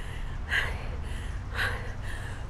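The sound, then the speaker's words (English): Ragged gasping breaths from a runner struggling through an asthma attack mid-run, a few sharp, breathy heaves spaced about a second apart, over a steady low rumble of background noise. “I can't breathe. That's me coaching myself out of an asthma attack while on a run.”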